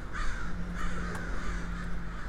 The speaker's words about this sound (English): Even the crows seem a little bit off.